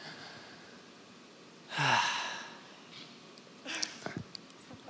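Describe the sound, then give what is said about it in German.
A person takes one deep, audible breath in as a calming exercise, a long, breathy rush lasting about a second. A softer, shorter breath sound follows later. “Bleib einfach mal stehen, sei mal ruhig und atme einfach mal ganz tief ein. Ihr dürft das mal zu Hause machen, einfach mal tief einatmen.”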